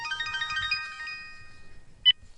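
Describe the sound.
Phone ringtone from a call coming from a late daughter's disconnected phone: a bright melodic run of repeating electronic notes that fades out, then one short, sharp beep.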